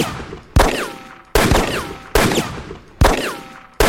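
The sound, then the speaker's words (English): Dual-wielded Glock 19 and MK-23 pistols firing in a video game, five loud, sharp shots at an even pace, each trailing a ringing tone that falls in pitch before the next. “15 in your Glock 19 and 12 in your MK-23. Dual-wielding pistols do not track average damage. This tells you ammo, so now if I shoot...”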